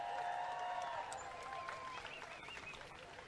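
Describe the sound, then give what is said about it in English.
Faint crowd applause at an International Women's Day rally for a trade union choir. A soft, continuous patter of clapping fades slightly over the few seconds, with some thin tonal sounds above it. “so can we give them a round of applause?”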